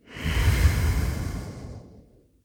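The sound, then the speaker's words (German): A slow, deep breath during a guided relaxation exercise: one long, soft, airy rush that swells quickly, holds, then gradually fades away alone. “Mach's dir bequem. Atme tief ein und aus.”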